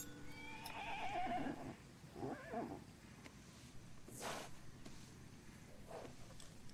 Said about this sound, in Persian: چه خبره؟ اسب چی میگه؟